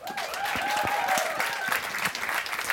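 Audience applause welcoming two guests onto a stage, dense steady clapping that holds at an even level throughout.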